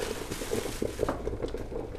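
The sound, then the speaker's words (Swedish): Stew pots simmer on a home stove with soft, irregular bubbling and small pops, faint and steady throughout, with no voices. “Hemma hos Janne puttrar grytorna på spisen.”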